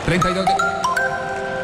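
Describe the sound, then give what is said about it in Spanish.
A short station identification jingle used during Colombian football match coverage: a few bright chime-like notes in quick succession, settling on a held tone. “Suena la señal que une a Colombia.”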